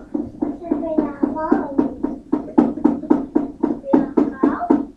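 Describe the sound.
A small box with a ball inside being shaken, giving many quick, evenly spaced rattling knocks in a steady rhythm that continues throughout.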